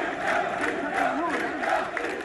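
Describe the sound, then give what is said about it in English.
A crowd of protesters chants outside a mosque in Derna, Libya, a week after a deadly flood, a loud, dense mass of voices in a continuous, rising and falling chant. “Crowds of people chanted and held banners outside the mosque”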